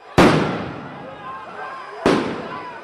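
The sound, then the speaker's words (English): Two sharp, loud bangs from police flashbang devices at a street protest against police brutality in Seattle, the second about two seconds after the first, each leaving a decaying rumble, with faint crowd voices in between. “A fifth day of protest against police brutality and racism in Seattle ended last night with police using tear gas and flashbang devices.”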